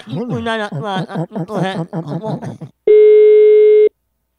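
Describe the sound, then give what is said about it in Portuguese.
A telephone busy tone after a dropped call: one steady, loud, pitched beep of about a second. It follows animated talk broken by chuckles, then cuts off sharply. “A ligação caiu”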